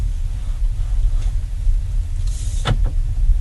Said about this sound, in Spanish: Nos ponemos el cinturón de seguridad y arrancamos el vehículo para bajar hacia la parte donde están esas piscinas.